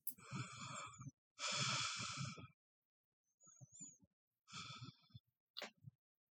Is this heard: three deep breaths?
yes

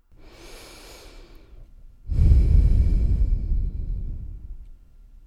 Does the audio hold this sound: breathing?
yes

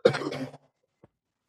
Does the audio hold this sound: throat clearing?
yes

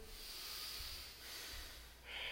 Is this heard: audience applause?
no

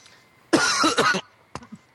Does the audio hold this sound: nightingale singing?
no

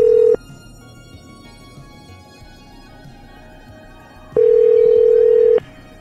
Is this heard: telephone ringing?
yes

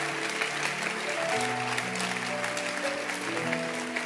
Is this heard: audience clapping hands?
yes

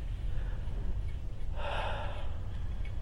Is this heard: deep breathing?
yes

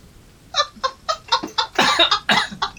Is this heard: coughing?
yes

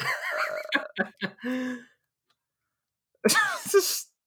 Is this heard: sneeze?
yes

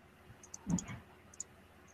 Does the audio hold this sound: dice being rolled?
yes

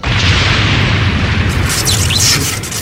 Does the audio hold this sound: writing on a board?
no

